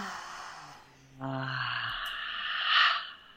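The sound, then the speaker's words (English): A deep breath drawn in through the nose and let out through the mouth: soft, airy rushing that swells in a long, slightly louder exhale, with no talking. “I'll take an inhale through the nose, and the exhale out the mouth.”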